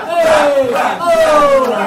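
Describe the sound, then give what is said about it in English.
A crowd shouts a cheer in unison for socials, two loud, drawn-out group yells back to back with a brief dip between them. “One more cheer for socials.”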